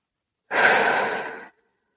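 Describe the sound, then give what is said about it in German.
A single deep breath in, taken slowly through an open mouth as a soft, airy rush that lasts about a second and fades out smoothly. Nothing else is heard. “Und dann nimm mal einen tiefen Atemzug in dein Zentrum.”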